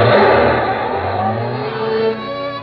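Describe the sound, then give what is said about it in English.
Car engine revving hard as the car takes a corner on two wheels during a test drive. A loud, continuous engine drone with wavering pitch that eases slightly near the end, with no talk. “I turned the corner on two wheels”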